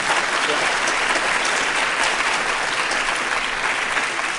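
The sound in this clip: An audience applauds to welcome a guest onto the stage, with dense, sustained clapping that holds a steady loudness from start to finish.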